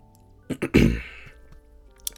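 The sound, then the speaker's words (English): A single stifled sneeze bursts out after two short, sharp intakes, then fades into quiet with a faint click near the end. “I had to sneeze, but damn it.”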